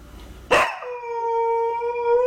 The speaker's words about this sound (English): I need you to translate what the dog is saying